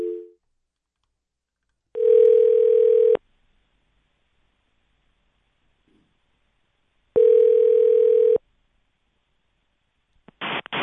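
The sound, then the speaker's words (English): Telephone ringing tone plays in a handset while a call goes through to a hotline. Two long, steady, mid-pitched tone bursts are separated by silence, with a brief faint blip at the start and a short burst at the very end. “I can just dial that straight without the anything else, right?”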